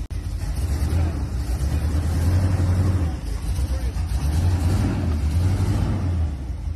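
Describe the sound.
A car engine without power steering rumbles low and steady, with the rumble swelling in places as it is revved. People talk over it.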